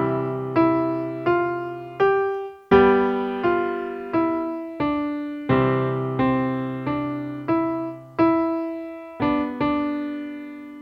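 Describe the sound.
A piano plays a simple melody with added chords beneath it, a steady sequence of struck notes and chords, each ringing and decaying before the next, clear and moderately loud with no talking.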